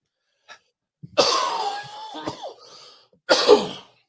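Coughing and throat clearing from someone with bronchitis and phlegm: a couple of faint breaths, a long rasping, wheezy clearing of the throat, then a short harsh cough burst.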